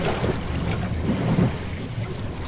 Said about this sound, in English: So we've just done our last sail of our trip, and we're just heading into Portland Harbour now.